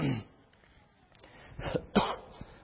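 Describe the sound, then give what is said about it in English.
A cough and throat clearing from someone with a cold: a few rough, breathy bursts, one at the start and two close together near the end, with quiet between them. “Excuse my throat. I come down here to where it's supposed to be warm and now have a little bit of a cold bothering me.”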